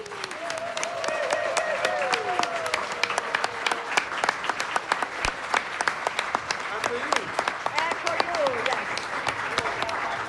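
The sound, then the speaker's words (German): Audience applause after a panel discussion: dense, steady clapping fills the whole clip at an even level, with a few voices heard faintly early on. “Nochmals einen ganz herzlichen Dank und einen Applaus für Baba, für Maya und für Lolita.”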